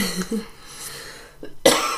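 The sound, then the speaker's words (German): Coughing from a person in a casual German conversation: a few harsh, breathy coughs, the last one the loudest and sharpest, with quiet pauses between them and no talking. “Entschuldigung, ich dachte, ich wäre ausgehustet.”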